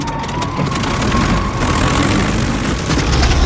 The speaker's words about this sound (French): Mais à ce moment précis du décollage, ce que les membres de l'équipage ne savent pas, c'est qu'ils ne reviendront plus jamais à Fort Lauderdale.